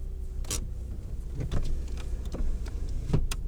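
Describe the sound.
A car edging forward at a drive-thru: a low, steady engine rumble runs throughout, broken by a few faint clicks and soft mechanical thumps.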